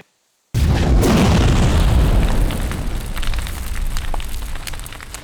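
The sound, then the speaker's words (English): A large fireball explodes amid fighting soldiers in a battle: a sudden, very loud blast bursts out of silence, then a dense, rumbling roar sustains and slowly eases off. “It exploded right on us. We were all down.”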